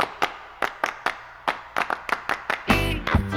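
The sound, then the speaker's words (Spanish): Sharp hand claps at a children's party sing-along, many of them in a brisk, steady rhythm, with no other sound between the beats. “Aplaudir, aplaudir, todo el mundo va a aplaudir.”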